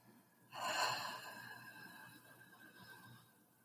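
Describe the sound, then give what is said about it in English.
A long exhale through an open mouth during a yoga breathing practice for anxiety. It is a single breathy whoosh that starts abruptly and loud, then softens into a fading airy sigh. “Open your mouth and exhale.”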